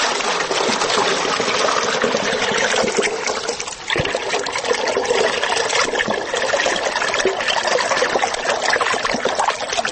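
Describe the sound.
Water pouring into a 10-litre bucket and filling it within seconds: a continuous, loud rushing splash that barely dips partway through.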